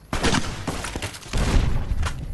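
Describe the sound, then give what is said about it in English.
Gunfire in a Fallout video game: several loud booming shots with heavy low thumps, following closely on one another in a dense burst over a couple of seconds. “first shot was way off, but the second one was dead on”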